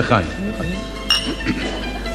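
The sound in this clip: Glasses clink in a toast among people at a meal, with a few brief, bright chimes sounding under ongoing conversation.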